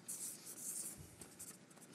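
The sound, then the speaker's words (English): Pens scratching as people write words on paper: soft, continuous scraping and scribbling, faint and steady with small uneven strokes, no voices. “Everyone do me a favor and just write the word buyer, and underneath that write the word seller.”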